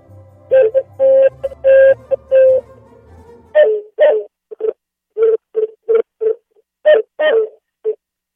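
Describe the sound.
A huilacapixtli, a wind instrument imitating a dove's call, plays a run of hooting, breathy notes: several longer held tones first, then many short cooing notes in an uneven rhythm.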